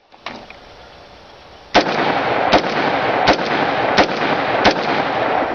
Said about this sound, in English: Here is a standard semi-automatic AR-15 in 223.